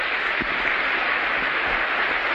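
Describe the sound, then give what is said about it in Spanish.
Audience applause at a sales and invitation talk, a dense, steady wash of clapping that holds evenly for the whole stretch without pauses. “¿Por qué no se dan un aplauso?”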